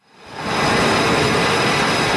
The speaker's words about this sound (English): A fighter jet races down the deck of an aircraft carrier in the Strait of Hormuz. It lifts off, disappearing into the sky.